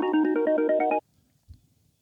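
A phone ringing on an outgoing call: one loud, melodic ring of about a second, then silence broken by a single soft thump.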